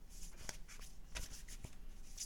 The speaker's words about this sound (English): I'm just taking my focus inward to the deck, which is what you need to do when you're shuffling cards and they're not coming to you.